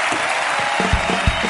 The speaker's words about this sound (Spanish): Pido un aplauso para el campeón del mundo, Javier Fernández.